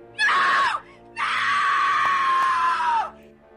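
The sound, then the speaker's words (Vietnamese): Shrill, frightened human screaming, like a cry for help at night: a short scream followed by a much longer, sustained one, loud and piercing, each dropping slightly in pitch as it ends. “Nhân và ông Đại nghe thấy tiếng hoảng sợ kêu gào, âm thanh the thé như cầu cứu vang lên giữa đêm khuya.”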